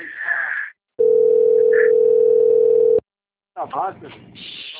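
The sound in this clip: An outgoing telephone call rings on the line as one steady, low electronic tone lasting about two seconds. Short snatches of voice come just before and after it.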